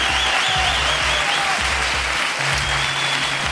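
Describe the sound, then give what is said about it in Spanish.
Dense, loud audience applause with cheering at a live show, a steady roar of many hands clapping throughout, with a whistle or shout rising above the crowd. “honestamente yo diría que este está entre los 7 mejores aplausos que nos han dado en las salidas en directo del programa”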